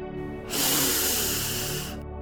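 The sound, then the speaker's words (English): A big inhale through the nose during a breathwork exercise, heard as one steady, airy hiss of drawn breath lasting about a second and a half, alone and fairly loud. “we're going to take a big inhale in through the nose and hold the breath at the top.”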